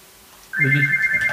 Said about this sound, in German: Natürlich, in jeder Ausgabe muss einmal das Telefon klingeln.